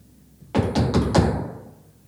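Knocking on a door: four quick, evenly spaced, loud knocks with a dull resonance that lingers and fades after the last one.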